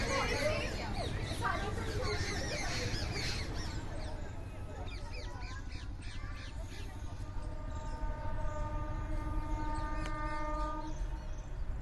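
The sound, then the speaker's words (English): Trains and town traffic in Agra rumble as a steady background wash, with a sustained train horn tone sounding through the later half. “Well, no doubt you can hear Agra town in the background, trains and traffic”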